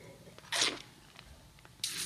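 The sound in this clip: Two short, hissy slurps of Pinot Noir red wine being sipped and aerated during a tasting, each a brief airy burst separated by a quiet pause.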